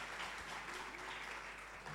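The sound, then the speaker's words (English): Faint, dense applause from an audience at a school debate event, a continuous even wash of many hands clapping at low level. “Oh, you can keep your hands, you know, put your hands together. Keep clapping as they join us. Keep clapping as they join us.”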